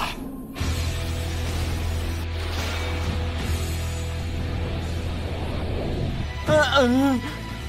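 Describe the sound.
Beyblade spinning tops, one of them Valkyrie, battle in an arena with a continuous whirring, grinding mechanical rattle that stays steady throughout, and a wavering whistle-like tone rises briefly near the end.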